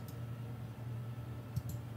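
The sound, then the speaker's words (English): Computer mouse double right-click during an online tabletop role-playing game: two quick, faint clicks close together near the end, heard over a low steady hum. “Is there a way to target with just my mouse? That I don't know. Right, double right click.”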